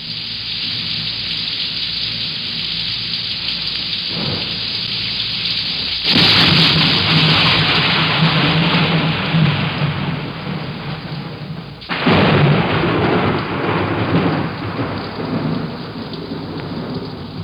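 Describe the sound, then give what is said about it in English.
Heavy rain pours with a constant dense hiss while thunder breaks through, with two loud cracking claps that roll on and a fainter rumble before them. “And then there's rain.”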